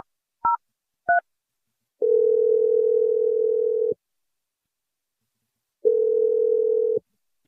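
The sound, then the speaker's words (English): Two brief telephone keypad tones open a call being dialed, followed by a long steady phone tone, a pause, then the same tone again. The tones are clear and play alone, with no voices. “I'm going to dial it right now. Here we go.”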